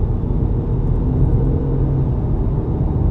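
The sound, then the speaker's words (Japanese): A car drives along Route 15 from Shinagawa toward Kawasaki, producing a continuous loud, low road and engine rumble that stays even throughout, with no talk. “江南口に車で行くにはですね、これ今まあ15号ってとこを走ってるんですけど、品川駅から”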